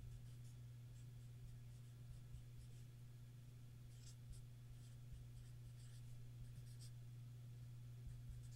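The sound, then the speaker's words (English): Pen writing on paper as a trivia question is written out, faint scratchy strokes in short bursts over a steady low hum, with many small marks and pauses between them. “I'm going to write a trivia question.”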